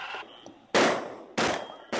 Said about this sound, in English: There you go, get him, shoot him more.